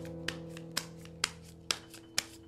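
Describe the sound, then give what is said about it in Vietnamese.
A deck of playing cards is handled during a shuffle, with five soft, sharp slaps spaced about half a second apart over a faint, steady low hum. “Rồi bắt đầu coi nha. Xào bài. Đàn ông xào 7 cái đi mày.”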